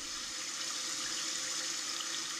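Babbling brook water flows in a steady, continuous splash and gurgle, evenly loud for the whole clip with no voices.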